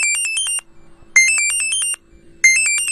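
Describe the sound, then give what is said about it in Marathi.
Phone ringtone: three bright electronic bursts of rapid, high-pitched pulsing notes, separated by short silent pauses, with no voices. “अरे थांब, सुखदाचा phone आहे.”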